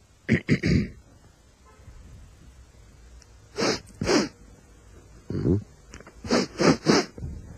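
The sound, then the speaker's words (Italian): A man imitates an 18-year-old with a cold sniffing, making short, sharp nasal snorts in quick clusters of two to four, separated by pauses of quiet breathing. “Un uomo di 18 anni, sì? Afflitto da raffreddore. Va bene. Che tira su col naso.”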